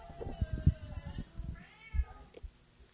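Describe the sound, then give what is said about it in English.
A cat meows to be let into an office, giving a few faint, drawn-out cries against a quiet background. “Did I hear a cat? Yeah, he wants to get into the office.”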